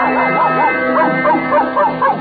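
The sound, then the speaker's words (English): A dog's yowling howls and yips, presented as a bass singer in a comic opera act, form wavering, rising-and-falling sung tones that are loud and continuous across the short clip. “Well, to continue with our introductions of Mickey's Grand Opera star, presenting that famous canine basso, Pluto the Pup.”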